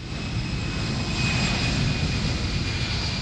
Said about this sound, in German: Wenn ein Airbus oder eine Boeing vom Flughafen München zum Langstreckenflug abhebt